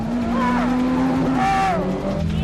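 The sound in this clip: A car skidding through controlled drifts, tires squealing in wavering high-pitched whines over a loud, continuous engine roar.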